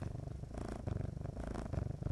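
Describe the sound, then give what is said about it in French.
A contented cat purrs steadily, a low rumbling vibration that pulses evenly with its breathing and runs unbroken throughout, with no talk over it. “Rien, tu es content, tu es heureux, tu ronronnes.”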